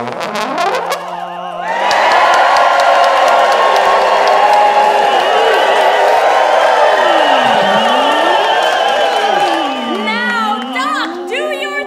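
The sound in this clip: Cheering and applause from a studio audience surge in after a brief electronic tone and hold at a steady, dense roar for about eight seconds, with swooping synthetic tones running through it before the crowd noise eases off.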